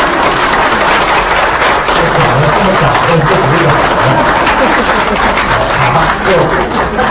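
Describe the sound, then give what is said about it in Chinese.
Sustained audience applause during a lecture on compassion, a dense, steady wash of clapping that runs loud and unbroken for about seven seconds. “鼓掌啊”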